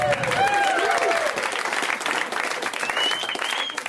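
Audience applause as a comedian is welcomed to the stage, dense and steady clapping that holds loud for the whole stretch and eases slightly toward the end.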